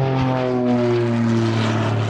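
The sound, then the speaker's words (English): A bush plane flying low and fast overhead during a drone training session: a loud, steady propeller and engine drone with strong tonal harmonics holding throughout. “A bush plane dips down out of the sky, far faster and lower than anticipated.”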